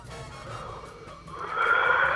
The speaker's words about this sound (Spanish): Tenemos un bostezo. Tenemos un bostezo que nos está llamando en vivo y en directo.